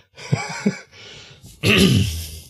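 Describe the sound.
Throat clearing from the back of the throat as a vocal warm-up: a couple of short, low grunts, then a longer, loud, gravelly rasp, with no speech.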